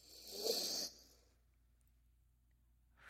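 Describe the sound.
A single slow inhale during a relaxation exercise, a soft airy rush lasting under a second, followed by near silence.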